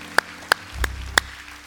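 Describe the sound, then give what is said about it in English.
Hand clapping at a Sunday church service as the audience is asked to applaud the Lord: a few sharp, separate claps spaced evenly apart, with quiet in between. “Come on, can you put your hands together for the Lord?”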